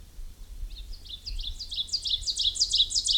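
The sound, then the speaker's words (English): Call of a dusky flycatcher: many rapid, thin, high-pitched chirps in a quick repeating series. The series grows slightly louder and denser toward the end, alone without voices. “Dusky flycatcher.”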